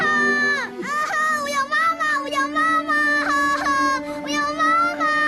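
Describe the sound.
A young boy cries in long, high, wavering wails that run almost without pause, with brief catches for breath between the sobs.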